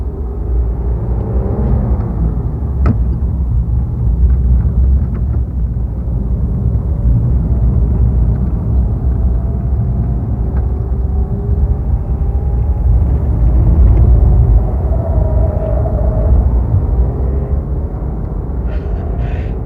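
A car drives steadily with a continuous, loud, low engine rumble and road noise, with no voices over it.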